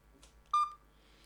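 A single short telephone keypad DTMF tone rings out clearly over a faint low hum, then trails off quickly.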